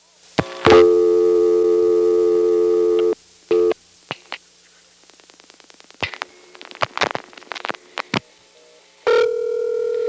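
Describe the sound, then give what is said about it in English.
Telephone line signalling on a call to code 110 in Greenville, North Carolina, routed to operator intercept: a long steady buzzing tone, a short burst, scattered rapid clicks, then another steady tone at the end. “In Greenville, North Carolina's NX1, the code 110 went to operator intercept.”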